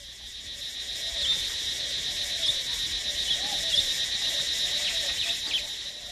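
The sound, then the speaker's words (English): Shrill insects in the jungles of western Cambodia make a high, continuous buzzing drone that holds steady and fairly faint throughout, with a few brief chirps rising above it. “In the jungles of western Cambodia, the voices of insects are shrill”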